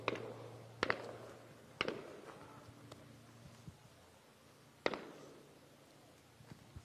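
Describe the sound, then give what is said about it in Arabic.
Several live gunshots ring out, fired toward young men: sharp, isolated cracks spaced irregularly, faint overall, with two close together near the start and a longer gap before a later shot. “في هذه الأثناء نسمع عدة طلقات حي باتجاه شبان نراهم أمام أعيننا في هذه المنطقة.”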